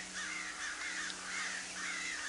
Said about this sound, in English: Why do the crows yonder gather in the middle of the field?